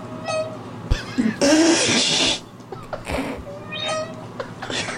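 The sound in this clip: Cat meowing while half-submerged in bathtub water: a few drawn-out, wavering meows with a rough, noisy stretch in the middle, fairly loud and without any talking.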